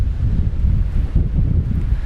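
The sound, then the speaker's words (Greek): Strong wind blowing on a dirt road through a forest, buffeting the microphone as a steady, loud, low roar and rumble with no voices. “Σιγά σιγά θα φύγουμε. Ακόμα βρισκόμαστε σε χωματόδρομο. Φυσάει πολύ και είναι πολύ όμορφα.”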